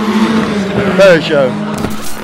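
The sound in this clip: Racing cars, including a Ferrari, a Peugeot and a BMW, pass at a track and their engines roar loudly, with people talking over the steady engine noise.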